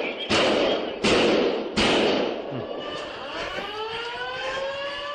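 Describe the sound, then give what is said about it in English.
Three sharp, loud gunshots in evenly spaced succession during an encounter with a shooter, followed by a rising, wailing siren-like tone. “You're about to hear gunfire. Shots fired.”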